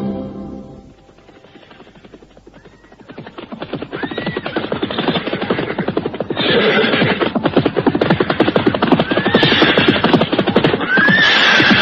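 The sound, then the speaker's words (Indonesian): Horses neigh several times over a fast, steady clatter of hooves as riders travel on horseback, the hoofbeats starting quietly and growing loud and dense, with no talk. “kau berkuda paling depan sebagai penunjuk jalan”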